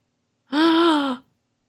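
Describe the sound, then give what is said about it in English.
A single sharp gasping inhale, a short voiced breath of under a second that starts abruptly, holds a steady pitch and cuts off, clear and alone against silence. “I always do like an extreme inhale when I see the death card”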